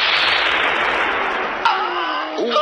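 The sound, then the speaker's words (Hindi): Gunshot effect of an enemy bullet striking a soldier near a bunker in battle, a sharp report cutting through a steady roar of loud noise, with a second burst near the end. “दुश्मन की एक गोली उनकी छाती में आ लगी।”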